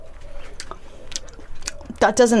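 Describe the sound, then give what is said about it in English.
Chewing on small, tough, yellowing home-grown basil leaves gives a few soft, moist crunches spaced about half a second apart, faint and alone, before a voice starts speaking at the end. “Let's see what they taste like. Some of the leaves are still okay, but a lot of them are gone a bit yellowy and stuff. So, basil-y. Oh, that's disgusting.”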